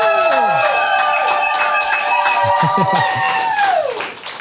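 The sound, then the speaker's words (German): A studio audience makes a huge, loud racket of sustained cheering and high whoops over rapid clapping. The noise holds steady and then tapers slightly at the end. “Mach doch mal einen Riesenlärm, damit alle mitbekommen, dass es hier weitergeht.”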